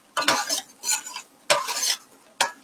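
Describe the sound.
Onions sautéing in a pan, heard as a utensil stirring and scraping in four bright bursts with gentle sizzling between them, and no talking.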